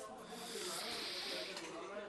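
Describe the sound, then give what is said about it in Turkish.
A slow, deep breath out, taken as a calming exercise to get over hiccups, forms one long, soft, steady breathy hiss that carries on for about two seconds at low volume. “Şimdi derin nefes al. Nefesini bırakırken yavaş yavaş saymaya başla.”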